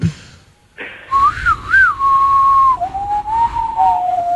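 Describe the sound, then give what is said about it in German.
A whistled tune at a railway station, with a single clear, high melodic line that wavers and bends in pitch, then settles into longer held notes. It starts after a short burst of noise and continues with no talk. “Und was pfeifen sie für ein Lied?”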